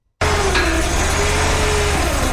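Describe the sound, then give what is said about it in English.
A fishing boat motor drones as the boat steers into a flooded rice field used for crawfish farming in Anahuac, Texas, starting abruptly and running loud and steady throughout. “Christian Burden steers his fishing boat into a rice field in Anahuac, about an hour east of Houston.”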